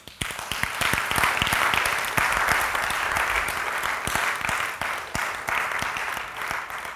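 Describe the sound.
A church audience applauds with dense, steady clapping. It is loud and sustained throughout, with no voices standing out.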